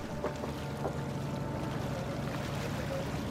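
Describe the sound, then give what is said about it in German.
A faint, steady drone and wash come from a dark-planked ship as it pulls away from the shore near the Kolberg lighthouse on a calm October day. The sound is soft and continuous, with no voices. “Das dunkel beplankte Schiff lässt auch den dicken Kolberger Leuchtturm hinter”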